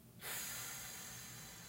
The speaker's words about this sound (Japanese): 吸ってはいじゃあゆっくり吐きます